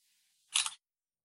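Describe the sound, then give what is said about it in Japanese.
A camera shutter fires once as a photo is taken, giving a short, crisp mechanical click with a quick double snap. Near silence surrounds it on both sides. “カメラこれかな？これだな。じゃあ撮ります。”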